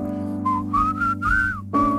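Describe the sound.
Someone whistles a tune in a few clear, sustained notes, breaking briefly before a new phrase starts, over a steady low background drone.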